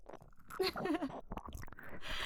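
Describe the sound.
Someone chews a nearly raw home-cooked dish, making soft, wet mouth sounds and small crunches, with a brief voiced hum mixed in.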